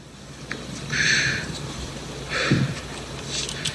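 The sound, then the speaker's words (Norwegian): Two breathy, hissing sniffles from someone crying, each lasting roughly half a second, with a quiet pause between them. “Og bare sånn hvis folk tror jeg sitter og sipper for at dere skal synes inn på meg.”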